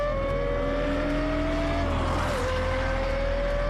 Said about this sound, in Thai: เสียงกึกก้องของฟอร์มูล่าวันทำให้คุณสะท้านใช่ไหม